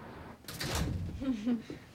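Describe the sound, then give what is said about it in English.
A door is pushed shut with a brief, muffled thud and slide, quiet overall, followed by faint voices talking. “Close the goddamn door.”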